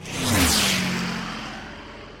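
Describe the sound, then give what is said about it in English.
An airplane taking off gives a broad roaring whoosh that swells quickly, peaks early and then slowly fades, with a falling tonal whine beneath the rush. “We're buckling up. Press the button because I'd like to have a drink. And we are going airborne.”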